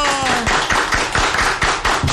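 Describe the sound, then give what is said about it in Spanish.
A few people clap inside a radio station booth to welcome a guest, giving sparse, irregular, sharp claps that follow a brief voice at the start. “A ver, aplausos, muchachos. ¡Bravo!”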